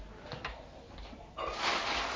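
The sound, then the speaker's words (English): A household cupboard being opened or closed: a few faint knocks and rattles, then a softer, sustained shuffling noise. “Find space for it again now. I must sort this cupboard out because there'd be plenty of room if I did.”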